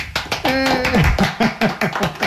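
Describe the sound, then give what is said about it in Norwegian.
A small group claps to celebrate a nearly finished knitted sweater: a quick, steady run of sharp claps, with one voice calling out briefly over them. “For litt applaus!”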